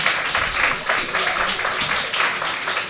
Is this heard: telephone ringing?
no